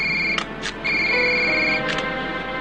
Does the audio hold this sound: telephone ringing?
yes

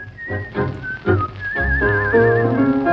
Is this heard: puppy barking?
no

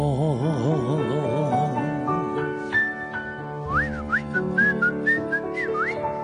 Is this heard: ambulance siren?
no

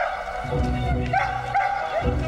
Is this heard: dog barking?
yes

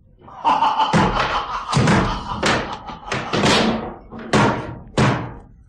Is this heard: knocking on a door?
yes

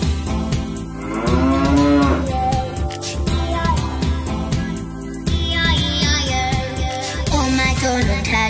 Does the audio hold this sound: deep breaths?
no

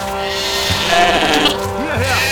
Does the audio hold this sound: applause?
no

